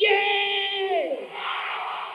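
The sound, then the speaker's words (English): Crowd shouts a loud, sustained "yay" together. The cheer holds for about a second, then drops in pitch and trails into a softer spread of crowd noise. “Are you ready? Give me a yay! That is loud enough.”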